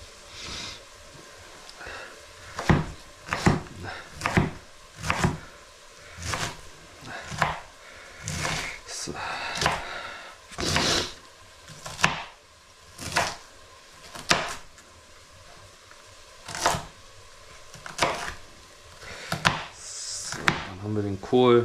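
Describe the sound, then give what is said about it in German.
A knife chops food finely on a cutting board, with many crisp, irregular wooden knocks separated by short pauses and a faint hiss between strikes. “Erste Hälfte hier schon mal schön klein und fein geschnitten.”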